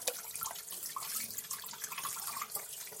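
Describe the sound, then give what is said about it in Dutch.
Running water from a tap as hands sticky with dough are washed at a sink: a steady, faint splashing flow with light drips throughout, and no talk. “Ik zal nu eventjes die handen afwassen, want anders plakt dat hier allemaal.”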